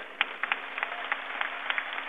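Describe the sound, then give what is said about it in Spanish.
Light, scattered hand claps at a ceremony honouring a school of the Sisters of Mary Help of Christians, with sharp individual claps standing out over a thin, muffled background. “Un aplauso a Santa María Mazzarello de las Hermanas de María Auxiliadora.”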